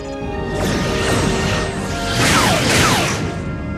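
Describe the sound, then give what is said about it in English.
Type 6 photon torpedoes fire at a missile in a science-fiction starship battle effect. A loud, continuous roaring blast carries several sweeping whooshes. “We're equipped with Type 6 photon torpedoes. They may just get through. Fire!”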